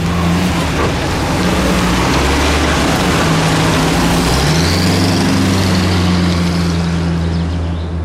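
Early twentieth-century automobile engines start up for a reliability drive, making a loud, continuous rattling drone with low chugging underneath. The noise holds steady throughout and eases off slightly at the very end.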